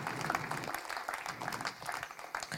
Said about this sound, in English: Church, why don't we put our hands together for those watching online.